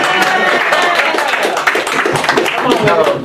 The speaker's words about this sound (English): Well, no, go ahead and clap for her.